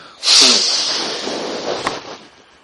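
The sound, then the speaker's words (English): A single deep exhale during a breathing exercise, a loud breathy rush that starts abruptly, then tapers off over about two seconds. “Total breath. And hold it for at least 10 seconds. Keep your mind at the belly button and breathe out.”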